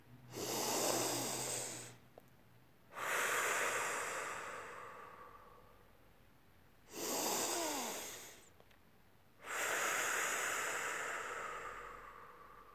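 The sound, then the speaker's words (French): Slow, deep breathing during a guided relaxation exercise: four long, airy breath sounds, each lasting a couple of seconds and separated by short pauses, heard alone with no talk. “Vous respirez profondément trois fois. Inspire, activez l'énergie. Expire, relâchez.”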